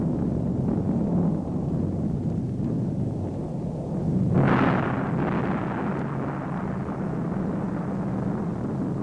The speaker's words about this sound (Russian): Над полем битвы стелится черный дым. Небо красное от взрывов.